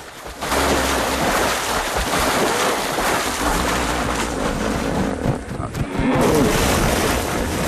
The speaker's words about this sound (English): His rival charges out of the water, spray flying up on all sides of him.